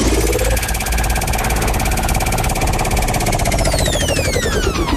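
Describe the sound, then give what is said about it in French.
A game-show prize wheel spins with a loud, rapid, unbroken run of ratcheting clicks that lasts several seconds and is heard alone. “On va tourner la roue, un défi, et on joue ensemble.”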